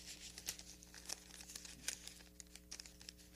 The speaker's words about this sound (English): let me get these pages turned